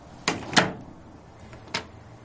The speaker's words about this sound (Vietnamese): Cô kéo cánh cửa lại rồi đóng chốt thật chặt